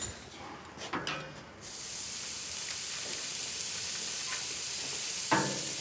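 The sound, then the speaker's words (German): Burger patties land on a grill and sizzle: a few soft clatters, then a steady hiss that swells and holds to the end, with a sharp crackle just before it finishes. “Ich packe jetzt hier die Burger-Patties auf den Grill.”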